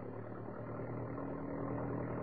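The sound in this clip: A Jeep engine as a drama sound effect, on a road through a city's outskirts: a steady, low, droning hum with no clear change in pitch, faint and alone.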